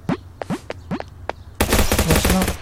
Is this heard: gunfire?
yes